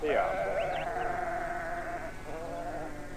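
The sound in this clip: Lambs bleat on a farm: a long, quavering, wavering cry, then a shorter second bleat, over a soft steady background.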